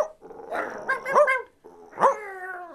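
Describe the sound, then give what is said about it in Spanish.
Stray dogs barking: a few sharp, mid-pitched barks mixed with whining, yelping tones, coming in two short bursts separated by a brief pause. “con los primeros o últimos ladridos de los perros vagabundos”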